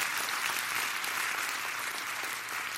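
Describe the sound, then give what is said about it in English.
Audience applause at a church gathering, a thick, even roar of many hands clapping that stays steady throughout with only a slight dip near the end. “you can clap if you want, not for me”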